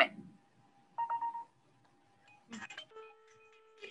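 Faint electronic ringing of an outgoing phone video call: a few short tone bursts and a longer steady beep over near silence.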